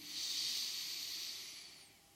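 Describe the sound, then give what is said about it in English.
One deep, slow breath: a soft, airy hiss that swells quickly, holds, then fades away, faint and alone. “And if you would, let's all take a deep breath in”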